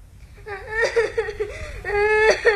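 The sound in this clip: A child whimpers and cries in wavering, pitched sobs that rise and fall, with short catches of breath between moderately loud wails.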